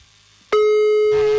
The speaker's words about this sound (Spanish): Le voy a marcar otra vez, ¿sale? De volada. Ahí está marcando ya. A ver si contesta.